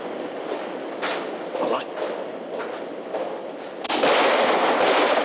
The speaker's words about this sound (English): Hearing the shots, everyone presses themselves against the wall